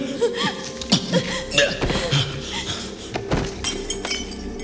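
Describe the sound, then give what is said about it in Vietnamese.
A porcelain vase shatters into many pieces during a scuffle, giving a cluster of sharp crashes followed by scattered tinkling clinks of fragments spread over several seconds. “Dương đẩy Công ngã xuống đất, làm cho cái bình sứ vỡ tan thành nhiều mảnh”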